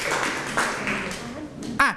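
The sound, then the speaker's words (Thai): Classroom applause for a student group that has just presented: a few scattered, sharp claps under ongoing talk, with one stronger burst near the end. “ปรบมือให้กับตัวแทนที่เป็นกลุ่มนี้ด้วยนะครับ”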